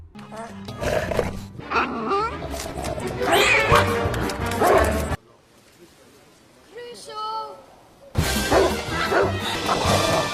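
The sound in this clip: A pet dog belonging to soldiers barks while chasing a creature through a kitchen in a film scene. The barks are loud and repeated amid shrill yowling cries, with a quieter lull midway before the noise bursts back.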